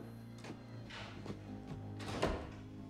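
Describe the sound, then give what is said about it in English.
A barracks door closes with a single dull thunk near the end, faint against a steady low hum. “Stony-faced, Sunday turns and walks out, followed by his second-in-command, who closes the barracks door behind them.”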